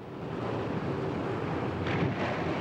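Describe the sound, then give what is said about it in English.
Ocean wave washing over something at sea: a steady, full rushing of water that swells slightly near the end, with no voices. “A wave covers it.”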